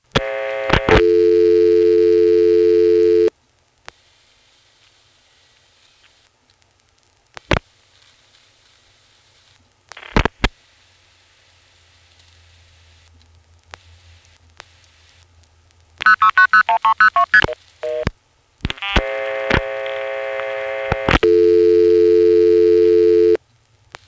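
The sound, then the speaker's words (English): A number is dialed into a OnePlus type telephone trunk line: long steady buzzing tones start and stop, with sharp isolated clicks, a faint low hum in the quiet stretches, a rapid flurry of clicks and tones, then the buzzing tone returns. “Now, I do need to try dialing a number into the trunk on 2, just in case it is listening to dial pulses. So let's try that.”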